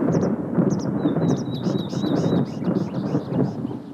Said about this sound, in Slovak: Čo to bolo, mami? Blíži sa búrka